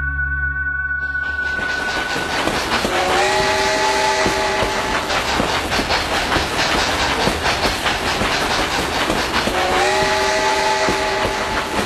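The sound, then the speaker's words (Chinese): Luxury passenger train running on rails: a steady, loud rumble with fast clattering wheel beats, and a whistle sounding clear tones near the start and again near the end. “豪华火车精英号豪华列车，跟湖南的精英节应该不搭边吧？被誉为会移动的五星饭店”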